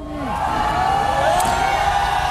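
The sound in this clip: Demonstrators at a protest cheer and chant, a dense, steady roar of many voices that holds at an even level throughout.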